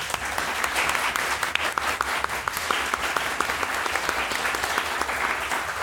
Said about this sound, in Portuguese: Salve de palmas